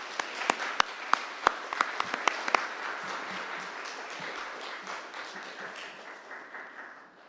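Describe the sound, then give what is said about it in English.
Applause from a church service audience welcoming guests: a few sharp, distinct claps open into steady, dense clapping that gradually fades. “Would you give them a hand just to welcome them?”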